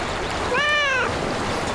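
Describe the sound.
A cat meowing on a Taiwanese university campus, one clear, drawn-out meow with a gently arching pitch, heard alone over faint background noise.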